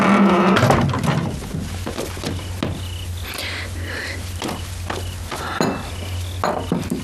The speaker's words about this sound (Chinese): 把门打开吧。